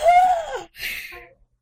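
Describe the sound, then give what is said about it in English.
A group of people let out a deep, drawn-out gasp together, a voiced and breathy sound in two swells lasting under two seconds. “Everyone make a deep gasp.”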